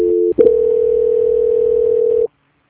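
Telephone line tone during a call transfer: a loud, steady mid-pitched tone breaks briefly near the start, then holds unbroken for about two seconds before stopping into silence.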